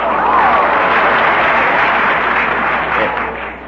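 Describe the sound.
A studio audience applauds before a radio play, with loud, sustained clapping on a band-limited old recording that eases slightly toward the end.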